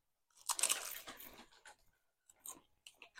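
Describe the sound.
Crisp crunching of wagyu beef steak flavored Lay's potato chips being bitten and chewed: a dense run of loud, brittle crunches early on, then a few shorter, quieter bites with brief pauses.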